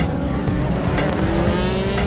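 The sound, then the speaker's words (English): Race car engines roar as the field crosses the line at the start of the 2008 Le Mans 24 Hours, with Peugeot and Audi prototypes among them. A loud, dense, continuous engine drone runs throughout, with a sustained whine. “they're off. The start of the 76th running of the Le Mans 24 Hours. Something like 24,000 horsepower crosses the line.”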